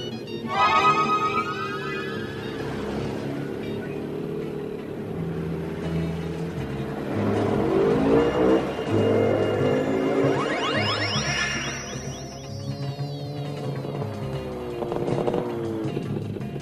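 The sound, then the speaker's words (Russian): Engines roar as a car and a motorcycle turn around mid-chase in an animated film. The loud whine runs continuously, with swooping rises and falls in pitch and whooshing passes. “Машина и Ури на мотоцикле разворачиваются.”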